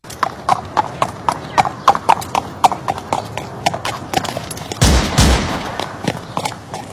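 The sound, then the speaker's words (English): Horse hooves clip-clop in a steady, evenly spaced rhythm for a mock Amish drive-by shooting. A brief burst of gunfire cuts in partway through, and then the hoofbeats carry on. “An Amish drive-by shooting. Wouldn't it be a ride-by shooting?”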